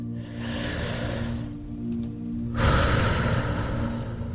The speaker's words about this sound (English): We're going to take a quick couple breaths. Ready? Just one more with me.